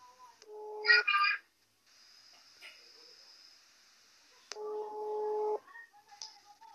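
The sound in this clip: Telephone line tones while a number is dialed to call a gerontologist: two steady electronic tones, each about a second long and a few seconds apart, with a brief high beep between them.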